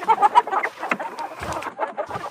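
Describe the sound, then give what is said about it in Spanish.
Chickens cluck in a chicken coop, with many short, choppy calls overlapping in a busy, steady chatter of fowl. “lo que nos explicó Dora el otro día, cómo debe estar el corral de las gallinas”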